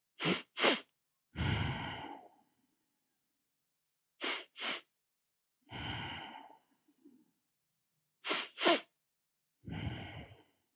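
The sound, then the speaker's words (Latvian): Physiological sighs through the nose, three in a row, each two quick short sniffing inhales followed by one long, breathy exhale, evenly spaced with silence between. “Tu vari jebkurā stresa situācijā izmantot šo fizioloģisko nopūtu. Tā strādā tā. Ir divas nelielas ielpas, kam seko viena gara izelpa. Un parasti to dara caur degunu.”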